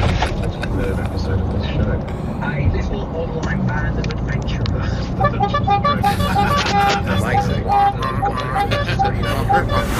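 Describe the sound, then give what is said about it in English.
A driver sounds a vehicle horn on a road, and short toots come thick and fast in the second half over steady engine and road noise, with voices talking throughout. “I don't know how he does that with his horn.”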